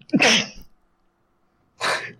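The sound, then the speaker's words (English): A sneeze blended with a laugh makes a loud voiced burst, followed after a silent pause by a second, shorter breathy burst. “Was that a sneeze or like a laughing something? I'm not entirely sure. I laughed and sneezed.”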